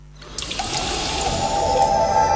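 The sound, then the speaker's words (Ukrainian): Water pours in a steady rushing stream, promoting natural soft drinking water drawn from deep underground. The stream builds gently in loudness with a faint tonal ring running through it. “Питна вода Девайтіс. Первісна м'яка вода із земних надр, яка не потребує доочищення.”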